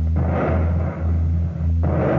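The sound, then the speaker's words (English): Naval gunfire and artillery from a radio drama's night attack on a German-held estuary form a continuous heavy, low rumbling roar with a few brief dips, without distinct separate shots. “They've spotted us. Lie flat. We're about to open fire. Lie flat on deck.”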